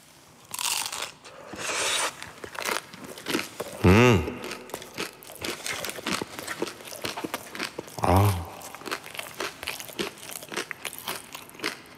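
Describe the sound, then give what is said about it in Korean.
Crunching of a spicy, seasoned crunchy snack: repeated crisp bites and chewing crunches in an irregular rhythm, close and clear. Brief vocal sounds break in at two points. “아 여러분 진짜 죄송한데 한 번만 더 먹을게요.”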